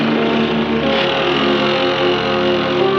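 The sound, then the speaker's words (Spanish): A motorboat engine drones steadily as the boat pulls away from a dock, a loud, unbroken rumble with a constant pitch lasting the whole stretch. “El bote se aleja del muelle”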